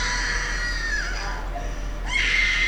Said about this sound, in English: And again. He's got an amazing scream, but come on.